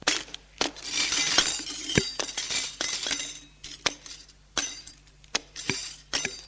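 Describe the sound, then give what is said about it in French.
Footsteps crunch over broken glass debris, with many sharp clinks and grinding crackles falling in an irregular stepping rhythm. The crunches stand out clearly against a faint background hiss. “L'on marche sur des débris de verre.”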